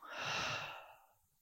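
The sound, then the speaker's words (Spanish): A single breath through the mouth during a breathing exercise, as though sipping through a straw. It is a soft, airy rush that swells and then fades, with no talking. “Inhalas por la boca, como si estuvieras tomando de un popote. Y al exhalar, también lo haces por la boca.”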